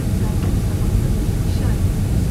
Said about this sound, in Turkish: şimdi biraz daha deminki yavaşlama daha oldu. Motor sesi iyice yavaşladı. Şu an epey bir aşağı iniyoruz